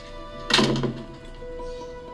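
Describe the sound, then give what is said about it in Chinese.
A door slams shut in a TV drama scene as a teenage son storms away from his mother: one heavy, sharp thud that fades within half a second, over faint sustained background tones. “Slam the door in mother's face. 把门摔到妈妈的脸上去关上，典型的青春期作风，typical teenager。”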